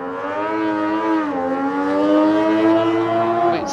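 Racing sidecar motorbike engine running as the outfit sets off, the rider trying to get into gear: a steady, loud buzzing drone that dips in pitch briefly, then holds and climbs slightly near the end.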